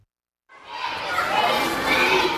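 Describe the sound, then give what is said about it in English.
Small excited boys in uniform flood the corridors of a newly opened primary school in Khartoum, Sudan. After a brief silence, a loud, dense mass of children's chatter and shouting swells in and carries on steadily. “At a newly opened primary school in Sudan's capital, Khartoum, small excited boys in uniform are flooding through the corridors in a two-story block”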